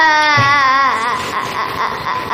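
A little girl crying: a loud, high wailing cry whose pitch wavers and falls, then continues as strained sobbing.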